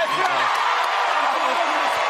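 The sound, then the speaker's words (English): Studio audience of The Late Show cheering during its final week, a dense, steady roar of mixed voices and whoops that holds at an even level throughout. “You know what this is? This is a Monday crowd.”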